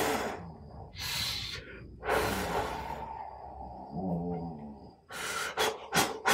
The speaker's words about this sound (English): There's one that's called the breath of fire. And be careful, you'll get dizzy on this one. It's just deep breath and